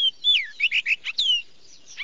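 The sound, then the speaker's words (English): A Baltimore Oriole calls at a bird-banding facility, giving a quick run of clear, high whistled notes. Several notes slur downward, and the bright chirps come in a loose, uneven rhythm. “So far, about 10,000 birds have been banded and released at this facility. Many are Baltimore Orioles, like this one.”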